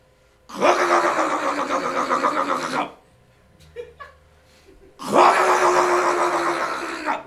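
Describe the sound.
A voice imitates a boat engine being started with the ignition: two long, loud, groaning vocal bursts separated by a pause with a few faint small sounds between.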